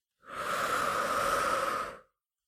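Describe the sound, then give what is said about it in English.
A single long, steady breath drawn during a calm stress-relief breathing exercise, a soft airy rush lasting nearly two seconds and heard alone. “Breathe in. Breathe out.”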